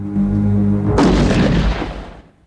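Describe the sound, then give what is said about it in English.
A single loud shotgun blast booms out about one second in, its broad, rumbling burst holding briefly and then fading away over the next second. “A shot hits DeGraff in the chest and he falls to the floor. Hawkins looks shocked and turns to see Priest standing with a smoking shotgun.”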